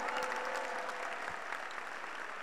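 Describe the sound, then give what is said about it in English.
Applause from an audience during a sermon: a continuous wash of many hands clapping at a moderate, even level for about two and a half seconds, with no voices standing out above it. “Come on, clap for somebody right here.”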